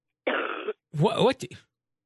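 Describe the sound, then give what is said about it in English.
A single harsh cough or throat clearing, a short noisy burst of about half a second, followed by a person talking. “You just gave a cough.”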